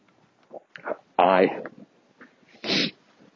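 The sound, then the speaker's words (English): Sharp nasal sniffing in freezing cold air, with two loud, noisy bursts standing out among quieter murmured speech from the person sniffing. “I'm sniffing, it's freezing cold.”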